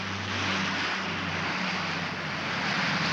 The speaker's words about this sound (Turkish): İşte işte bu uçak! Ah, ah geldi!